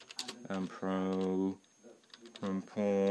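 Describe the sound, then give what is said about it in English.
Typing on a computer keyboard with one hand, keys hammered in short bursts of taps that fall between and under stretches of talking. “Sorry, I'm trying to type with one hand. It's very annoying.”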